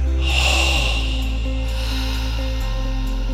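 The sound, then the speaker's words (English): A long breath out through the mouth during a guided breathing exercise, a soft airy rush that swells early and fades within about a second, over a steady low musical drone. “And on my voice, I want you to breathe out through your mouth. Are you ready? And out through your mouth.”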